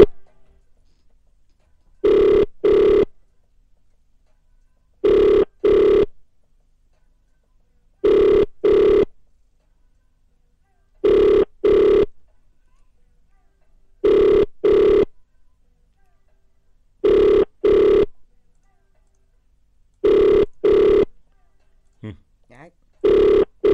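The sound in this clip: A telephone rings during a wake-up call, repeating double rings at even intervals with silence between each pair, loud and alone.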